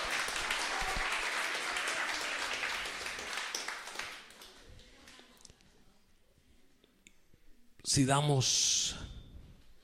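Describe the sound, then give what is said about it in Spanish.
Applause from an audience, dense at first, then thinning and dying away over about four seconds; a short, loud voice breaks in near the end. “Un aplauso para ella también.”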